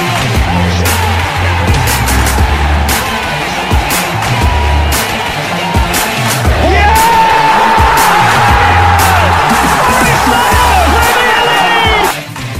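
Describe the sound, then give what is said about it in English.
A football crowd at the City Ground erupts after a Nottingham Forest goal, a loud, sustained roar of cheering, whoops and screams that runs unbroken throughout. “Tyler Wadi scores! And the City ground goes ballistic!”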